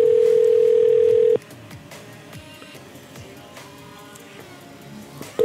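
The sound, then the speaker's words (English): A steady, loud telephone dial tone from a short voicemail recording holds for about a second and a half, then cuts off into a quiet, hissy background. The tone briefly returns at the very end. “We have a voicemail. Oh, it's only two seconds long.”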